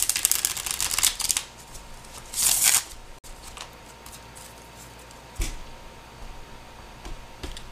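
Tarot cards are shuffled for a reading in two quick bursts of crisp riffling, followed by a few faint taps and card clicks against quiet background.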